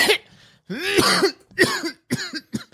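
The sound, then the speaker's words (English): A man coughs powerfully in a run of several harsh, throaty coughs in uneven bursts. Some are drawn out with a strained, voiced edge. “He starts coughing really powerfully.”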